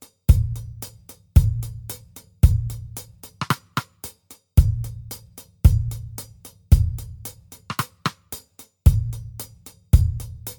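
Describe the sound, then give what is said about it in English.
A minimal drum beat without snare drum: booming kick drum hits recur in a steady, repeating pattern, laced with crisp, ticking hi-hat strokes in a regular pulse, played alone with no voices. “Let's first listen to the drums alone.”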